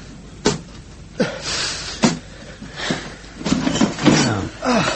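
Suitcases are opened: several sharp clicks and knocks of latches and lids, spaced out over a few seconds, with handling noises in between.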